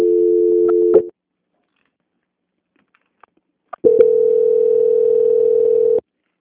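Telephone line tone during a call transfer: a steady low tone cuts off after a second, a silent gap with faint clicks follows, then the same tone returns for a longer, even stretch before stopping.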